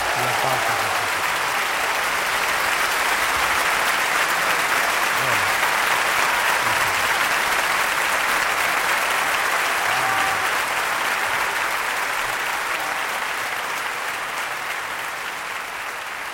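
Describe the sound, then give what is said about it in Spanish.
Audience applause for a song's lyrics, a loud continuous wash of many hands clapping that stays steady throughout and eases slightly at the close. “me enorgullecen enormemente de que estemos aplaudiendo una letra como esa”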